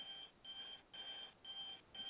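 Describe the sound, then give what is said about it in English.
An alarm sounds a quiet, high-pitched electronic beeping in five short bursts, evenly spaced in a steady repeating rhythm, with the last cut off. “That's my alarm, sorry.”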